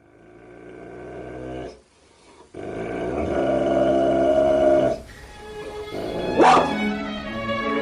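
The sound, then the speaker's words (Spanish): Dogs growl and bark in long, rumbling passages with a rough, tonal quality, broken by short pauses, with a sharper, higher burst near the end. “Los perros de Patlo.”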